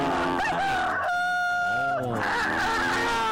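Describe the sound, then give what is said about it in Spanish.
A person imitates a rooster crowing during a promotion of meats and a creole breakfast, a long wavering call that bends up and down in pitch. “¿Cómo canta ese gallo? ¿Cómo canta ese gallo?”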